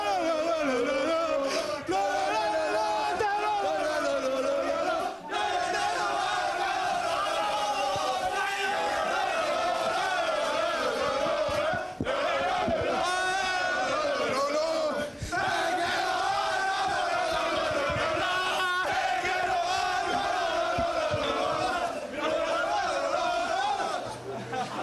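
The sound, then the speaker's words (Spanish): Alcorcón footballers singing together in the corridor leading to their dressing room during a celebration, a loud sustained group chant with occasional shouts carrying on steadily throughout. “Ese es el sonido del vestuario del Alcorcón, del pasillo que lleva el vestuario. Siguen cantando los jugadores.”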